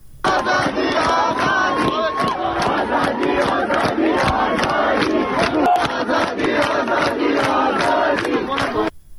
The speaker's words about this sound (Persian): در ساعت‌های میانی روز صدای یکی از شعارهای اونها رو میتونیم بشنویم.